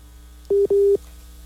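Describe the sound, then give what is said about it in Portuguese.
Telephone busy signal after a dropped call: two steady mid-pitched beeps, the second longer than the first, sounding in quick succession over a faint low hum. “Caiu a ligação do Irineu? Caiu. Eu vou retornar a ligação para ele poder conseguir rezar conosco.”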